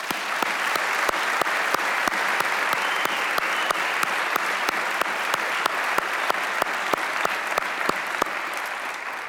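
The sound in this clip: Audience applause welcoming guests at a Southwestern gathering: a steady, dense wash of clapping that holds at an even loudness from start to finish, with sharper individual claps popping out of the crowd.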